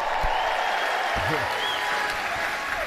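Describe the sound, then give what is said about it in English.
An audience cheers and applauds for Reverend Al Sharpton, a steady, loud wash of clapping and crowd noise lasting throughout. “And up high, if you believe in the Reverend Al Sharpton, make some noise.”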